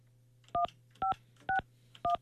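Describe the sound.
Telephone keypad tones dial a four-digit number: four short, evenly paced dual-tone beeps, each about half a second apart. They are faint, with a steady low hum underneath and no voices.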